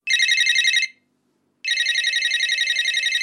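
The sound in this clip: Telephone ringing with an incoming call: two bursts of bright, high electronic trilling separated by a short silence, the second burst longer and still going at the end, with no talk over it.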